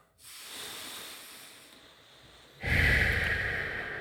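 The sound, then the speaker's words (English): One slow, deep breath taken during a guided meditation: a long, soft, airy inhale followed by a louder, fuller breathy exhale, with no talking. “So let's take a few breaths.”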